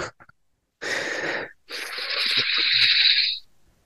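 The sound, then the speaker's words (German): A deliberate deep breath by one person: a drawn-in inhale of under a second, a brief pause, then a longer, loud, airy exhale trailing off, with no talk. “Lass mal völlig freaky mit einem sehr bewussten Atemzug beenden.”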